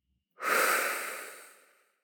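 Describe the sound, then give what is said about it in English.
A single deep, slow breath, soft and airy, swells quickly and then fades away gradually over about a second and a half, heard alone in silence. “we're going to take a deep breath in, holding that intention, and taking a deep breath out.”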